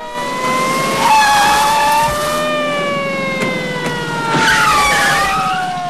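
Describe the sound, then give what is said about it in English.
Police car sirens wail as the cars race up and screech to a halt, steady siren tones slowly falling in pitch, with bursts of tire squeal cutting through, loud throughout. “Police cars race up, screech to a halt, and officers pile out.”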